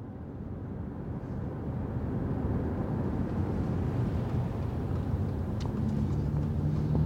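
A car drives through West Philadelphia, giving a steady low engine and road rumble that swells slightly and then holds even.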